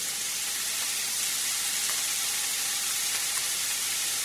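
Pancetta fries in a pan with a steady, quiet hiss of sizzling fat, even and unbroken throughout.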